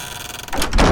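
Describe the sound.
A gate being closed: a brief scraping, sliding sound that builds into a louder, heavier closing sound at the very end.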